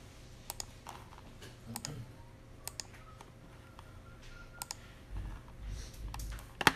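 Computer keyboard typing as a spreadsheet formula is entered: faint, sparse key clicks, mostly in quick pairs separated by pauses, with a brief low rumble near the end.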